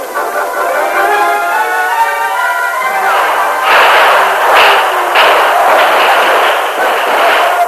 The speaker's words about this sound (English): At first, they traded shots with the marshal, the sheriff, and the posse. Then the Lone Ranger and Hex joined the fight, firing into the ranks of the crooks.